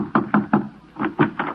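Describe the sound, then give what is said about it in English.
Knocking on a door: six solid thumps in two quick groups of three, separated by a short pause, each knock sharp and fairly loud with a dull wooden low end. “Somebody thumped on my door.”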